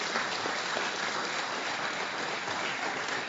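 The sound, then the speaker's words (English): Steady, dense applause from a church audience at Northwest Community Church welcoming a speaker, an even wash of clapping with no breaks. “So Tom, if you'd make your way up, give Tom a big Northwest Community Church welcome.”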